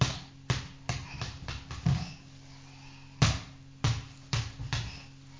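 A ball bounces repeatedly on a hard surface in sharp, irregular thuds, a quick run of bounces followed by a short pause and a few more, with no voices.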